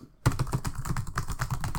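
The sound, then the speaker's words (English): Fingers typing quickly on a computer keyboard: a short silence, then a rapid, steady stream of many crisp key clicks with no talking. “Also, I did just type something out and send it to you.”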